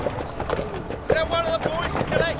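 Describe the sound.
Horses' hooves clip-clopping as a cart comes to a stop, a rhythmic clatter with voices heard alongside.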